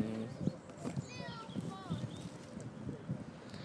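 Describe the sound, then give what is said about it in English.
A horse trots by in Streatham Common park, giving faint rhythmic hoof clops under wind noise and people talking, while a bird chirps briefly. “Someone's trotting by.”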